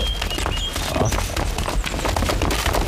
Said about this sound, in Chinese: 悟空，你看，前面有一帮人马，手里还拿着兵器。